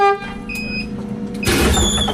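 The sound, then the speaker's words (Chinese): Steady engine drone of a public bus carrying schoolchildren slowly along a winding mountain road toward a village school, with faint high tonal whines over the rumble, turning louder and noisier partway through. “汽车沿着蜿蜒山路缓缓向着横渡中心学校驶去”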